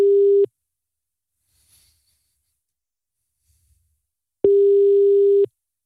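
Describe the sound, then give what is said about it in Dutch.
A telephone ringback tone sounds while a call is placed: two steady, mid-pitched tones. The first is cut short at the start, then there is a long silent gap before a second tone of about one second. “Laten we eventjes bellen met de winnaar. Hij gaat over gelukkig, dat is fijn.”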